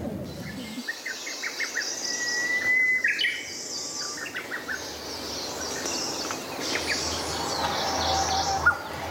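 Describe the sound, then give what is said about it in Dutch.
Japanese bush warbler, a small greenish songbird, singing in short chirps and clear whistled phrases, repeated at intervals over a steady buzz of insects. “U hoort hier nog de Japanse struikfluiter.”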